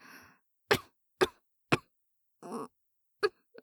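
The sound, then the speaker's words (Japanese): Coughing as if choking on a strong smell: several sharp, separate coughs with short gaps, one longer throaty cough among them, fairly loud with no talk. “むせてしまいます。”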